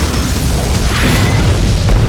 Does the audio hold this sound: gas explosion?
yes